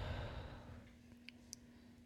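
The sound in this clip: A deep exhale during a guided breathing exercise, a soft, airy rush of breath that fades away within about a second, followed by quiet with a couple of faint clicks.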